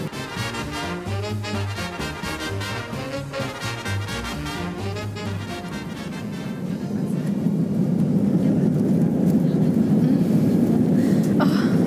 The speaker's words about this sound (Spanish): Tripulación auxiliar entrando en pista para despegue.